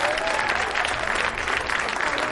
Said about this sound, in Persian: به به به آقایین مهندس اینجا یه دست بزنن خودشون.